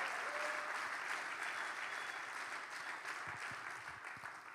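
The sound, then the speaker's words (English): A church audience applauding, with dense continuous clapping that stays steady and fairly quiet, easing off slightly toward the end. “Come on, church. Let's give it up for those that are watching online.”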